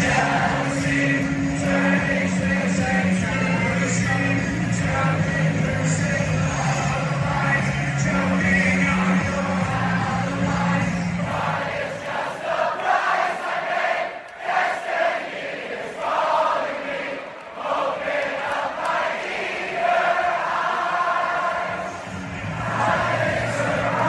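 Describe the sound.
A large crowd of students sings together at a University of Michigan football game, a loud, continuous mass of voices with a steady melody holding throughout.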